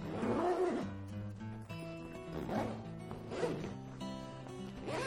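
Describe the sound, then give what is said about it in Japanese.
The zipper on the main compartment of an older-model bag is pulled open and closed from end to end. It makes slow, faint rasping strokes against a steady tonal background. “わかるかしら、この違い。旧モデルの方がファスナーの開け閉めに時間がかかるの。”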